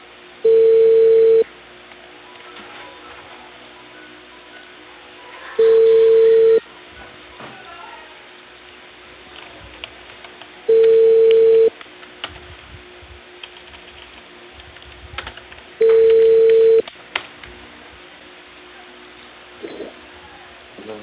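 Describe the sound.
Telephone ringback tone heard while placing a call from Peru: four evenly spaced, steady mid-pitched tone bursts, each about a second long, separated by longer stretches of near silence with faint background noise.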